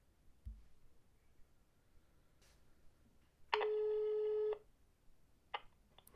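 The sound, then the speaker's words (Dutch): Ringback tone of an outgoing telephone call: one steady, buzzy one-second tone with faint clicks before and after it, and no talk. “We gaan eens even bellen met Daniel Vis.”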